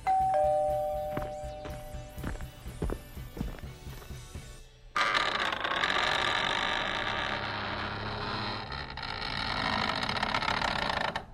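A doorbell rings with clear tonal chimes over a low steady hum, giving way after a few seconds to a loud, dense, sustained wash of sound.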